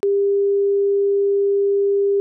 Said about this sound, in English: Here is a 400 Hz sine wave, phase shifted in 30 degree steps on the right channel.